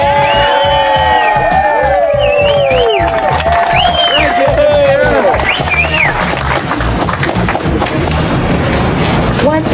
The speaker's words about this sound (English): Let's have a round of New York welcome.